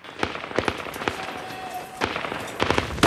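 Gunfire during a combat firefight between Marines and insurgents: sharp, cracking shots in irregular bursts, a few clustered early, then a pause before more bangs near the end.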